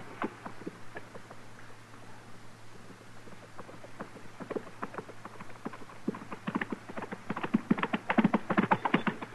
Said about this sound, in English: From the dust it's raising, somebody sure is riding at us in a hurry.